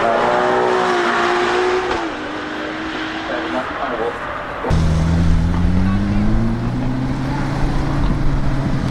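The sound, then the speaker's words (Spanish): A Ferrari engine roars steadily, its pitch dipping in steps, then cuts abruptly to a louder, deeper run that climbs gradually in pitch. “Y ahora vamos a cambiar de motor un poco, de forma radical. De ese sonido de este Ferrari hermoso, de esta rosa.”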